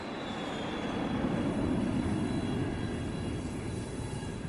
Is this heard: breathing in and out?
no